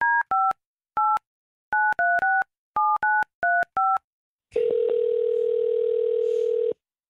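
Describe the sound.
A phone number is keyed in as a quick, uneven series of touch-tone beeps, each a short two-pitch tone. A loud, steady line tone then follows and holds for about two seconds before cutting off.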